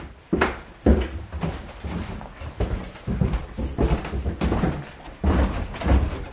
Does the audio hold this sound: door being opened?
yes